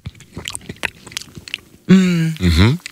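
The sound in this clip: Wet biting and chewing of a juicy mango, a run of soft squelchy clicks and smacks, followed by a loud voiced vocalization.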